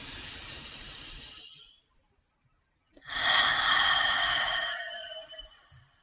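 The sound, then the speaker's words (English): Slow, deep breaths during a guided breathing exercise: two long, airy breaths of about two seconds each, separated by a quiet pause. The second breath is louder and fuller. “I'm going to invite you to take a couple more breaths with me. Take your time with that.”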